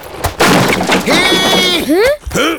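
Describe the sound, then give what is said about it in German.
A carriage wheel breaks as the wagon drives into a pothole, giving a sharp, loud crash. Startled vocal exclamations follow. “Denn der Wagen der Gallia fährt in ein Schlagloch.”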